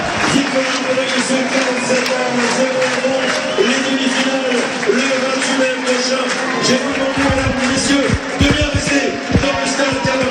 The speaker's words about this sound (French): On va profiter de l'ambiance un peu là, sur cette fin de soirée à l'Arabin. Écoutez le public de l'Arabin qui fête ses joueurs.